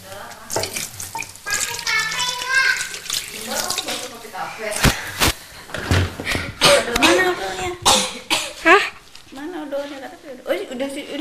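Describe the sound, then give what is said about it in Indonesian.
Tap water runs from a faucet while hands are washed, splashing and trickling unevenly as people talk intermittently over it. “Ya, cuci tangan dulu, Mbak.”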